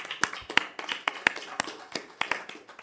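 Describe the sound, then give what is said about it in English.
Sparse applause at a fire board meeting honouring the communication department: a few people clapping in scattered, uneven claps, fairly faint and with no voices over it. “Congratulations to communication department. Let's give them a round of applause.”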